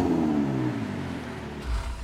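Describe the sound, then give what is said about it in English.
Italian sports car engine running and then being switched off: a smooth, humming idle whose tones sink as it winds down, with a low thump near the end. “I shut the engine off”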